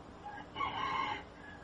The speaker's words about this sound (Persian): صدای خروس هم میاد در زمان.